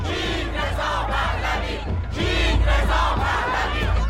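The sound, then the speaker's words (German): Excited fans cheer and shout in a crowd greeting Reza Pahlavi, son of Iran's last shah, in Berlin. Massed voices roar continuously and swell louder in the second half. “Begeistert wird Reza Pahlavi Mitte April von seinen Fans in Berlin begrüßt.”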